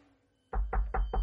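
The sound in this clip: Knocking on the door of an old master's house: four heavy, evenly spaced, low thudding knocks after a brief near-silence.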